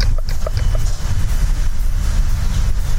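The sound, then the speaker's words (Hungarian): A passing tram fills the scene with a steady low rumble and grinding noise. The sound stays dense and even throughout, with no voices. “most erre sincs módunk, hiszen elhaladt a villamos.”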